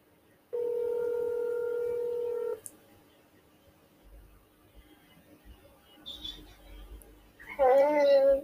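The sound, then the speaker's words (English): A steady telephone dial tone holds for about two seconds before cutting off, followed by faint, scattered quiet noises and a louder, brief burst of sound at the very end. “I'm going to be dialing her in to this podcast, so just let's call her.”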